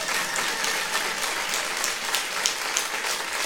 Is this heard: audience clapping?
yes